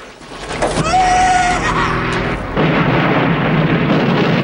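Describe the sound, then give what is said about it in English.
A helicopter drops out of control, crashes to the ground and explodes in a vast fireball: a loud, dense, sustained roaring rumble with a brief high whine early on, then a continued heavy roar to the end. “The helicopter explodes in a vast fireball.”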